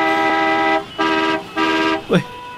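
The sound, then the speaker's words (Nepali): A bus horn honks three sustained, steady blasts of nearly equal length, each rich in harmonics and separated by brief gaps, loud and without other sounds. “बोल्दा बोल्दै बसले लामो न लामो हरन बजायो।”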